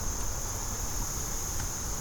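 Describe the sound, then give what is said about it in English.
Insects chirp in reeds about eight feet tall, making a continuous high, thin buzzing trill that holds steady and fairly faint throughout, with no talking. “Lots of bugs in the reeds. The reeds are really tall, like 8 feet tall.”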